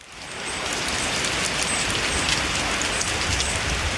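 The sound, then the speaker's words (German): Spruce needles falling in a forest of dying spruce trees, giving a dense, steady, rain-like patter. The hiss is loud, even and continuous throughout, with no voices. “das ist der Klang von fallenden Fichtennadeln im Wald. Krass, das klingt wie Regen.”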